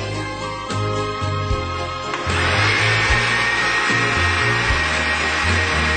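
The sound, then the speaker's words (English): Blender whirring as it blends silken tofu, soy milk, unsweetened cocoa powder and agave syrup: a loud, steady motor roar with a churning low rumble, growing slightly louder partway through, with no talking. “Combine half cup of silken tofu, half cup of soy milk, 2 tablespoons of unsweetened cocoa powder, and 1 tablespoon of agave syrup or another sweetener of your choice, all organic if possible, in your blender.”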